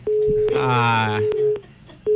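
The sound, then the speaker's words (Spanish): A telephone busy tone follows a dropped call: a steady, mid-pitched beep sounds in a few separate stretches, and a voice briefly sounds over it in the middle. “Ahí está, se queda la llamada. Es el problema del teléfono.”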